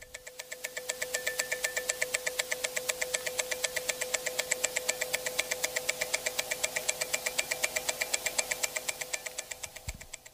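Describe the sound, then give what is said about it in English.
Rapid, even ticking of a Rolex automatic watch movement recorded close up: a steady, fast stream of sharp mechanical clicks that continues unbroken throughout, with no voices. “so that was an example of just what a Rolex would sound like very close up.”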